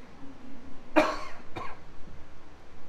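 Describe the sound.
A couple of short coughs from a tickle in the throat: a sharp, loud first burst followed a moment later by a softer second one, with no talk around them.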